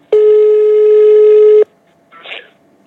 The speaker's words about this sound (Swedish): nu ska vi ringa pappa